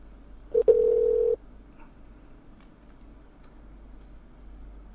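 A telephone line tone as a call is redialed: one short, steady electronic tone, followed by faint clicks and a quiet line hiss.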